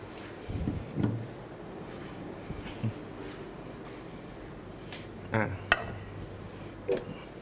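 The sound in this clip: A serving plate is picked up during a Thai yam salad cooking demonstration, giving a few faint, light clinks and knocks spread across several seconds over a low, steady background hum.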